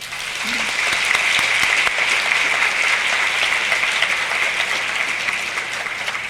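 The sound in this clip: Warm audience applause greets a guest at a live healthcare operational planning event. Steady, dense clapping swells in quickly, holds evenly for about six seconds and tapers slightly near the end.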